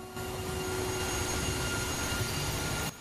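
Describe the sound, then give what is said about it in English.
A diesel train slowly pulling into a station: a steady low rumble with a faint mechanical hum holds at an even loudness for nearly three seconds, then cuts off abruptly. “A diesel train slowly pulls into a station.”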